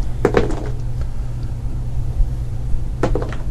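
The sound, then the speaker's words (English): Gambling dice rolled during a tabletop game make two short bursts of hard clattering, one near the start and one near the end, over a steady low hum with no talking. “I will let you roll your gambling dice at minus 2.”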